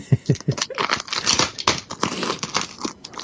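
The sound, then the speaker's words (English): Packing tape and wrapping being torn off a box, with continuous loud crinkling, ripping and rustling, dense and irregular throughout. “So we're just getting the wrapping up now, so getting all the tape off.”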